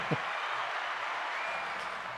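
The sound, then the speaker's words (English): Applause used as a sound effect: a steady, continuous wash of clapping that holds at an even level for about two seconds, with no voices over it. “And I'll give you a little bit of applause there. There you go.”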